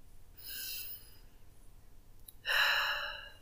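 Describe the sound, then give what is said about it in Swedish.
A deep breath taken while settling into a guided relaxation exercise: a soft, airy inhale, a short pause, then a louder, fuller breath of air that slowly fades. No talking. “Ta ett djupt andetag och blunda.”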